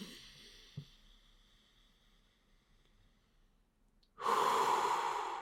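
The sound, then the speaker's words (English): Deep breathing, the stomach filling first and then the chest, heard as a long, soft, airy breath that fades, then a sudden loud, rushing breath that holds strongly to the end. “You want your stomach to start bulging with each breath, and then your chest to follow along past that as well.”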